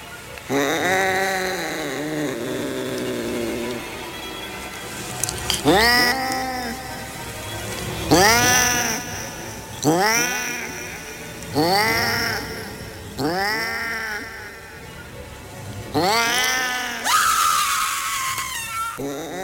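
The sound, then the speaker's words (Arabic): A cat meowing again and again from inside a room, a long run of loud, drawn-out, wavering calls spaced a second or two apart, with no speech. “بدأ صوت القطة يجي من عندها تاني من الأوضة”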